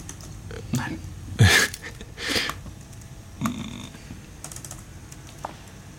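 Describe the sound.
Typing on a computer keyboard comes through distorted and choppy: a few scattered, irregular clacks and taps. One sharper burst stands out among faint, uneven keystrokes over a quiet background.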